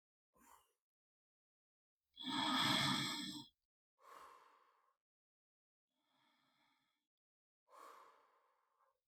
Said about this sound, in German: Und dann nimm drei ganz tiefe Atemzüge ein und aus.